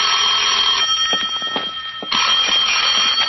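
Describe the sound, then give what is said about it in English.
A telephone bell rings in an old-time radio drama scene, a loud, harsh metallic trill that dips partway through before returning at full strength, with no voices. “At 10, my phone rang.”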